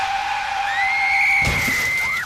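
Car tires skid in a long, high-pitched screech that wavers and bends upward, broken midway by a short, harsh burst of noise while the squeal carries on to the end.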